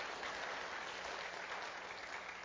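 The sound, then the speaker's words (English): Audience applause after a missionary shares about a journey, a faint, even wash of clapping that carries on without a break. “Can you give a round of applause?”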